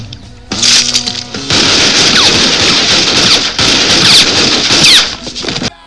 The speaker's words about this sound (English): Two hand ejected pistols pop out. Gunfight starts. Huge gunfight, one of the coolest action scenes in the movie.